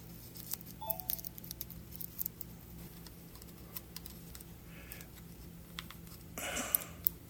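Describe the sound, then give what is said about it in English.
Faint clicks and taps of a memory card being pushed into the SD card slot of a Zoom H1essential 32-bit float portable audio recorder, with a few light ticks and a brief rustle of handling near the end. “And when you put the card in, come on.”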